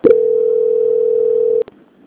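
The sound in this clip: Telephone call transfer tone: one steady, even mid-pitched beep holds for about a second and a half, then cuts off with a couple of quick clicks on the line, followed by faint line noise.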